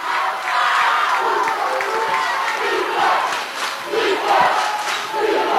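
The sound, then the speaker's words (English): Crowd cheering and shouting fills the Tiger Gym at a high school boys' basketball game, North Polk at Carroll. The roar stays loud and sustained throughout and swells in waves. “Crowd coming alive here tonight in the Tiger Gym.”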